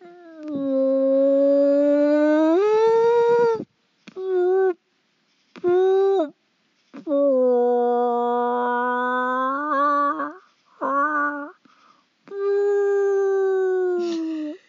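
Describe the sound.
A human voice imitating a whale call, long moaning wails with a rising swoop, broken into several sustained, loud cries separated by brief silences, heard alone.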